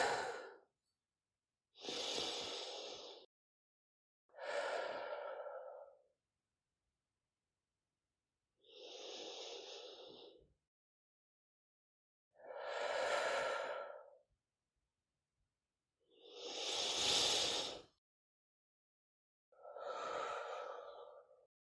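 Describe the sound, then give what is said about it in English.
Slow, deep breaths during a guided relaxation for creative thinking: a series of long, airy swells of breath, each separated by a quiet pause, with no talking. “And taking three deep breaths now.”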